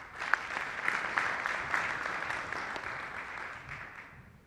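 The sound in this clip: An audience applauds to welcome a speaker at a presentation, a dense, even patter of many clapping hands that holds steady and then tapers off toward the end.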